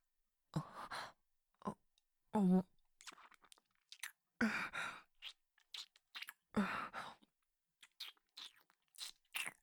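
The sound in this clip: Chewing and biting into food: many short, crunchy bites and wet mouth sounds in an irregular rhythm, interspersed with soft breathy sighs.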